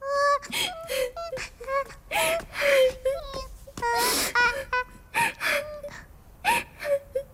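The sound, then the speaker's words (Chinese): A girl weeps sadly at home, her sobs breaking into many short, quavering, wailing bursts. Choked gasps and catching breaths fall between the cries. “青铜回到家里伤心的哭泣。”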